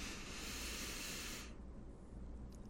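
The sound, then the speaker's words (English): A slow, deep breath is drawn in through the nose during a guided breathing exercise. The soft airy hiss lasts about a second and a half, then drops away to near silence. “we're going to take a nice breath in through the nose, nice and deep.”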